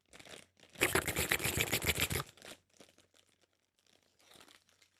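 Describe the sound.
Crinkly rustling as a plastic bag of chocolates is opened, with a loud burst of crackling crumples lasting over a second, followed by quieter, scattered rustles.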